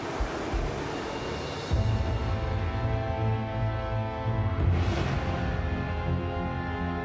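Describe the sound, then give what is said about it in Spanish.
Hurricane wind and heavy waves strike at night around ships anchored in a sheltered bay, making a continuous loud roar. Deeper surges swell in near the two- and five-second marks. “Anclan en una bahía protegida que espera les brinde algo de protección contra toda la fuerza del huracán. Cuando cae la noche, golpea el huracán.”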